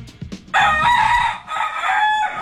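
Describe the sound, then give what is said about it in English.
Roosters crowing at a suspected cockfighting operation in a Chester, Pennsylvania warehouse raided by police: loud, long, harmonic crowing that briefly dips midway and then carries on strongly, over a low rumble. “cockfighting operation in Chester. This has made the national news. Awesome. Pennsylvania. You like the background noises.”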